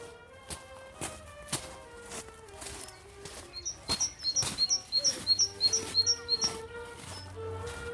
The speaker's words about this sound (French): la première charbonnière de l'année. Une petite mésange qui est sur le carreau de fosse. Et d'ailleurs, mésange charbonnière ici dans ce coin-là.